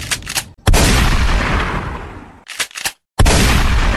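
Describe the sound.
Shotgun blasts from a gun loaded with salt cartridges: loud booming reports, one with a long fading tail, broken up by a few short bursts and brief gaps of silence.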